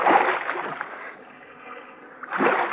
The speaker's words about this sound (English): Go on, move, Tabori. You're flirting with a Purple Heart. All right, now lean on that paddle.